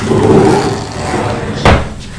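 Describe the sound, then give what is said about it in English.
A drawer is opened at home, with a soft wooden scrape and then a single short knock near the end. Faint, low household sounds sit underneath. “I'll keep the drawer open.”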